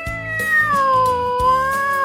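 A domestic cat hiding under a sofa gives one long, drawn-out meow, loud and tonal, sliding down in pitch midway and then holding steady to the end.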